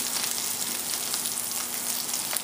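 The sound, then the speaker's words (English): Boiled potatoes fry in a small amount of olive oil with a steady, bright, crackling sizzle. The sound is moderately loud, continuous and even throughout, with no talk over it. “I put just about a teaspoon of olive oil in there, not much. Then what we're gonna do is just gonna add our potatoes in there”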